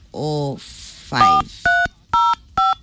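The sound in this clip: Telephone keypad tones ring out while a call is placed by dialing a star code: three short, steady dual-tone beeps, evenly spaced, come after some earlier warbling sounds.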